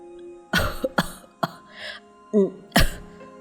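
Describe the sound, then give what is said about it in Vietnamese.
An old man coughs violently, clutching his chest, in a run of harsh, loud, rasping bursts with short gaps and some throat clearing between them. “Ông lão lại ho lên sặc sụa, ôm ngực”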